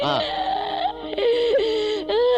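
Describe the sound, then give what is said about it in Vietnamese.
A woman crying and whimpering during a tense argument over divorce, drawn-out voiced wails with wavering, gliding pitch, broken into about three moaning phrases separated by short gasping pauses. “Đi vô đừng khóc nữa, mệt lắm rồi, đi đi, suy nghĩ đi.”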